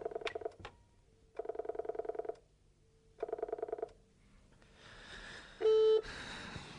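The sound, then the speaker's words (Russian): A telephone rings out with no answer: three faint, pulsing rings separated by short gaps, then a soft hiss and a brief steady beep. “Я позвонил маме, но никто не поднимал трубку.”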